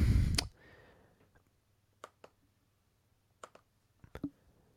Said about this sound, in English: click, click, click. Tabs, tabs, tabs. Internet, go faster. So that's what we're getting right now. I apologize. I had to click.